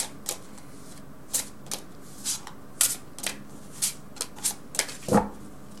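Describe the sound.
Cards being shuffled for a card reading, heard as many short papery riffles and flicks in an uneven rhythm, the last one fuller and louder, with no one speaking.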